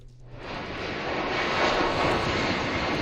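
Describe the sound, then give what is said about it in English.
An evacuation flight lifting off from the Canary Islands: an aircraft's engines roar as a dense, broad rumble that builds louder over the first second or so, then holds steady and powerful with no voices. “That is the sound of an evacuation flight lifting off from the Canary Islands with Canadians on board.”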